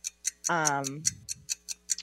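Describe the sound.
A game timer ticks steadily during a guessing game. Sharp, bright ticks come about five per second, with a brief voiced sound over them near the start.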